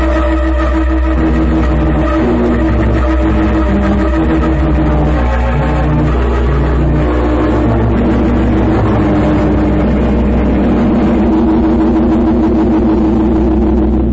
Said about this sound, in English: What in blazes was that thing, anyhow? A form of radio-controlled boat,